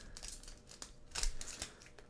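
A Pokémon trading card pack being opened, faint crinkly tearing and rustling of the wrapper in several short bursts, the loudest near the middle.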